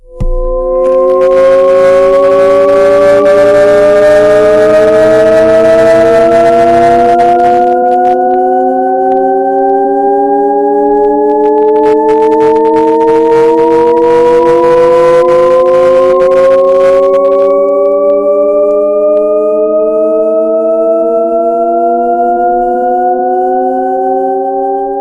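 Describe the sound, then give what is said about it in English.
A Shepard tone audio illusion: a loud, steady stack of layered tones that glides upward continuously and seems to rise in pitch forever, with two stretches of broad hissing noise layered over it. “So that's called a shepherd's tone.”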